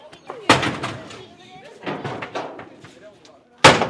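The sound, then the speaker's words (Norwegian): Heavy crashing blows as boys swing sledgehammers in dumpsters, smashing tables, chairs and shelves from a furniture section into small pieces; a few sharp loud impacts, with voices talking between them. “I søppelkonteinerne svinger korpsguttene sleggene. Bord, stoler og hyller fra møbelavdelingen blir knust til småbiter.”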